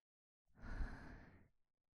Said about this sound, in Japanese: 耳元で熱い吐息を